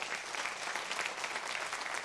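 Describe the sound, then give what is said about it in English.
Applause from many hands clapping together in a dense, steady clatter. It stays at an even loudness for the whole moment, with no voices over it. “I believe that deserves a hand clap right there.”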